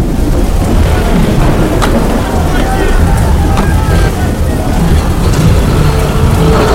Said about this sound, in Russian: Сильный дождь заливает стекло машину, заносит на повороте.